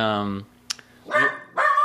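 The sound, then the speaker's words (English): A dog that has just come back from a walk barks twice in quick succession, with loud, harmonic yelps. They follow a brief stretch of human voice and a faint click. “My dog, Sissy, came back from a walk.”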